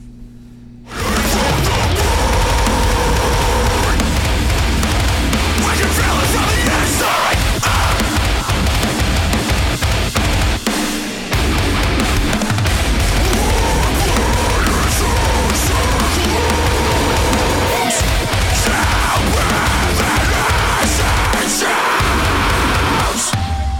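Heavy metal song with a guitar squeal, a loud, dense wall of distorted guitars and pounding drums that runs unbroken for over twenty seconds, with only brief dips in intensity.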